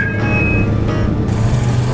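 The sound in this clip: A car driving, its engine giving a steady, loud low rumble and drone with a faint high tonal whine, continuous and unbroken throughout.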